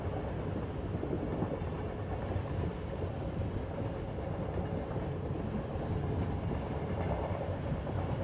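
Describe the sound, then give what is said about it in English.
A train running on rail tracks gives a continuous, steady rumble with a faint clickety-clack running through it. The loudness stays even for the whole stretch, and no voices are heard. “The sound of the tracks provide a hypnotic feeling of pleasure, as you know it means you are journeying to a stress-free place.”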